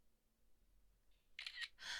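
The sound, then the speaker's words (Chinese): A camera shutter fires several quick, crisp clicks in close succession while a photo is taken, quiet against near silence. “你竟然拍照！”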